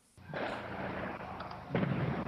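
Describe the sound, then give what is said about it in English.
Rocket and mortar shelling in a district of Homs: a rumbling blast bursts in abruptly and rolls on as a broad roar, then a second, heavier boom strikes near the end. “I can hear the rockets in the background, yeah.”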